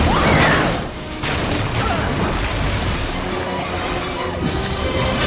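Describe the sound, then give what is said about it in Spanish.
Heavy crashing as an elevator structure falls onto a gallery inside a collapsing building, a dense, loud roar of debris and metal impacts that stays sustained throughout, with no clearly separate hits and no voices. “La estructura del ascensor cae sobre la galería y aplasta al guardaespaldas.”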